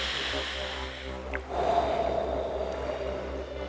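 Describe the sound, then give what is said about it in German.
A slow exhale through the mouth during a guided breathing meditation, one long, soft, steady breathy rush over a constant low hum. “und dann durch den Mund ausatmen, mindestens 5-mal”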